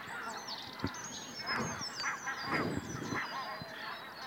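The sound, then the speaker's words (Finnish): Geese honking as a flock takes flight over a lake at dawn: many overlapping nasal honks rise and repeat in an uneven chorus, steady and fairly loud, with no voices. “nyt on hanhien päivä käynnistynyt. Kyllä se varmaan niin on, että se ensimmäinen päättää, että nyt lähdetään, niin sitten kaikki muut hyppää niin. ilmaan perässä.”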